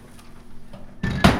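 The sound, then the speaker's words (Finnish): The hatch of a hot oven swung shut: a short clatter, then a louder, solid metallic thump right after, over a low background hum. “Nyt kun pannaan hetkeksi tuo luukku kiinni.”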